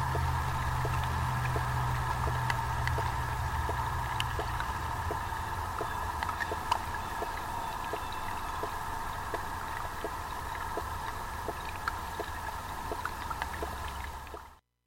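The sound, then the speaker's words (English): Underwater sound from inside the Wave Farm pond: a steady, watery wash with a continuous hum and faint, regularly spaced ticks, running without a break until it cuts off at the end. “listen to transmissions from inside a Wave Farm pond from morning until sundown from Zach Poff's Pond Station.”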